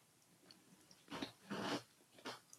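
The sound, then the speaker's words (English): Biting and chewing a sweet snack made with salty peanut butter gives a few faint, crisp crunching bursts, clustered in the second half, with soft breathing between them and no talk. “Okay, I'm gonna bite this too.”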